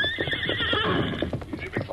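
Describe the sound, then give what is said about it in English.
A saddled horse lets out a loud, high whinny that quavers for about a second. Hoof clip-clops and stamping continue underneath throughout. “Silver and Scout are already saddled.”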